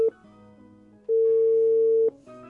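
A telephone busy tone sounds after a call is disconnected: a short beep, then a steady single-pitched tone of about one second, then the start of another, over a faint low hum.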